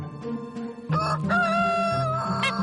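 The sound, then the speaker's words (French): Young hens on a farm in eastern France cluck, then a rooster lets out a loud, drawn-out crow that carries to the end. “C'est des jeunes poulettes. Donc voilà, les poules, ça pond tous les jours.”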